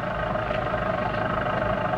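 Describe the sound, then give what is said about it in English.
A car engine drones steadily as the vehicle pulls up to a mailbox at night, a continuous low, even rumble with no voices over it. “Thought I heard... Wait a minute. It's a car.”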